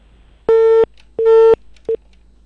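A telephone busy tone sounds after a call is hung up: two long, loud, steady beeps followed by a third, much shorter beep, with nothing else heard.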